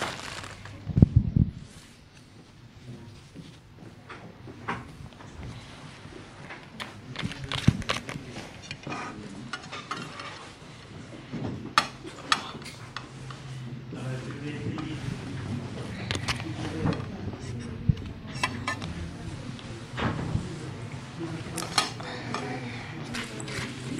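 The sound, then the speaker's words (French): A knife spreads butter onto slices of sandwich bread, giving faint, repeated scrapes with occasional cutlery clinks and taps. Ongoing talk continues over the sounds. “Ensuite, on beurre le pain de mie.”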